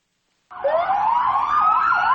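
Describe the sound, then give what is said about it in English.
Police sirens from a prisoner transport convoy leaving court in Boston wail loudly after a moment of silence, their pitch sweeping up and down continuously with no voices. “That's the sound of Johar Tsarnaev being returned to prison after a day in court in which he was sentenced to death.”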